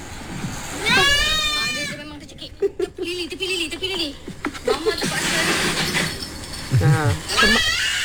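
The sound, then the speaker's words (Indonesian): Strained, wavering bleats of a choking goat open and close the sequence, with talk and scattered short knocks between them. “Ini suara kambing tercekik eh.”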